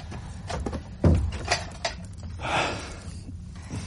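A door with a faulty latch is worked. There are a few clicks and wooden knocks with light rattling, and one sharper clunk near the first second.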